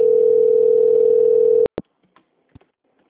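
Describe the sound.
A steady telephone line tone plays during a call transfer, cuts off abruptly, and is followed by a few faint clicks on the line.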